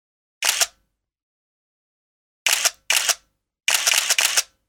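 Single-lens reflex camera shutter clicks ring out as sharp, bright bursts against silence: a lone click, a pause, two quick clicks, then a rapid string of several more.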